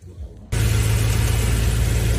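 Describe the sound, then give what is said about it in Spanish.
A BMW car drives off, its engine rising abruptly from near quiet into a loud, steady, low rumble with broad roaring noise that holds to the end. “acaba de salir la BMW. Acaba de salir a BMW.”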